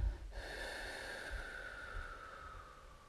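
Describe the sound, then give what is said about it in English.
A deep exhale is pushed through the throat during a guided breathing meditation. It comes out as a long, steady, faint rasp that slowly eases off over a few seconds, with no talk over it. “Take a big breath in and feel that breath in your throat. Feel the power of that breath in your throat. And now exhale.”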